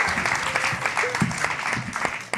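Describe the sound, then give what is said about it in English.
Audience applause at a live true-crime storytelling show, greeting a woman about to tell her story; dense, steady clapping of many hands with no clear break. “The lady I saw first here, would you like to tell us your true crime? Give her a hand.”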